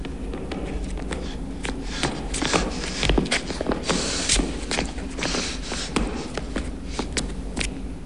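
Running footsteps of a person jogging at a steady pace along a dark, curved corridor: many quick footfalls in an even rhythm over a constant low background hum.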